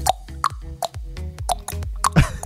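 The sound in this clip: A voice imitates dripping water: a quick, even run of many hollow, pitched plops, each sliding slightly downward, closing with a rougher, noisier burst.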